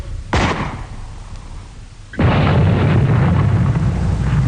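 Artillery gun firing in a radio drama about a Martian invasion: one sharp blast that quickly fades, then about two seconds later a heavier, louder roaring boom that holds steady to the end.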